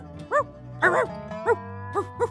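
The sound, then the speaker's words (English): A dog barks several times in short, sharp bursts, one pair coming close together, over a steady low humming tone. “Fudge barks”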